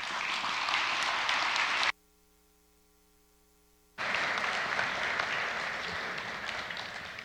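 An audience applauds to welcome guests onto a stage. Thick, even clapping breaks off abruptly into about two seconds of near silence, then resumes at full strength and slowly tapers.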